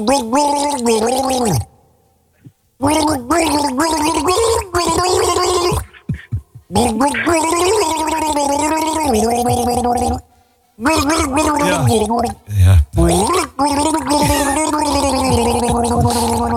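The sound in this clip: A woman gargles the melody of a world-famous pop hit, the bubbling throat tone rising and falling with the tune across several phrases separated by short silences.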